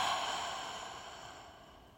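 A deep breath is released as one long, breathy exhale. It is airy and fairly faint, and it fades steadily over two seconds.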